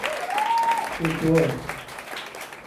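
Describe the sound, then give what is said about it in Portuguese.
An audience applauds a poet at a public talk. The clapping is moderately loud and brief, with a person speaking over it. “Vamos fazer um pouquinho de barulho aqui para o nosso grande poeta.”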